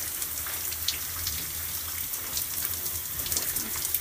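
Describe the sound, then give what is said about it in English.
Shower water running onto wet braided hair, a steady hissing spray with a faint, uneven patter of drops throughout, and no voices. “So, I'm going to put my head in the shower. I'm just going to wake up the braids.”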